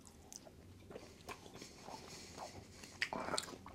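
Faint biting and chewing of a sugary snack: a few soft crunches and moist smacking sounds, then a sharper crunch toward the end.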